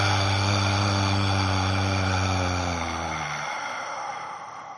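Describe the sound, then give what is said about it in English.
A slow, breathy exhale through the mouth during a breathwork exercise, a long airy rush that tapers gradually over about five seconds, heard alone without talk. “Exhale through your mouth for 5.”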